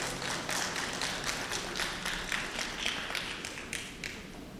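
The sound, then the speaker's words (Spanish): An audience applauds at a church gathering of a faith community: dense, continuous hand clapping with many overlapping claps holding a steady, fairly loud level for the whole stretch, with no voices standing out. “Vamos a dar un aplauso al Señor por la vida de Vasni.”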